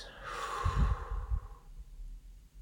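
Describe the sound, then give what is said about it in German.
A slow, deep breath is drawn in and let out during a guided breathing exercise, a soft airy inhale flowing into a longer, lower exhale, heard faintly and alone. “Atme einmal tief ein und wieder raus.”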